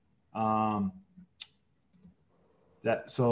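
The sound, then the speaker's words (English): A single short computer mouse click sounds between stretches of people talking. “If we click, we can go over here and click edit payments.”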